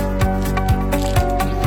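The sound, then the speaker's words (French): Euromatic envelope sealing machine with multi-strip welding, running at 8 metres per minute: regular mechanical clunks land about twice a second over a steady humming motor drone. “Euromatic est la machine à souder qui répond parfaitement aux besoins des grands cabinets qui ont de gros volumes d'enveloppes à souder.”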